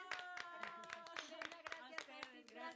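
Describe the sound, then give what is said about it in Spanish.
Audience claps in a steady, even rhythm, many sharp beats in quick succession, with a voice speaking over the clapping. “Aplausos para don Víctor. ¡Bravo!”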